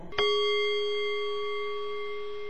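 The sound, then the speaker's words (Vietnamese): A clock strikes one o'clock with a single clear, bell-like chime that rings on with a steady, slowly fading tone. It is fairly quiet and sounds alone. “Đồng hồ gõ 1 giờ,”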